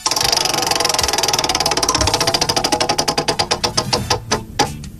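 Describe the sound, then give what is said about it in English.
A prize wheel given a hard spin, its pointer clicking in a rapid stream of ticks that gradually slow and spread farther apart until the last few sparse clicks fade out. “All right, I'm going to give it a really good spin. Hopefully it lands on that.”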